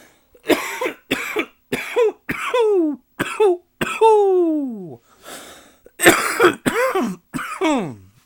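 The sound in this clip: Repeated coughs and throat clearing from someone with a tickle in the throat. Many short, harsh bursts come in quick, irregular succession, some trailing into a falling rasp, with no other sound between them.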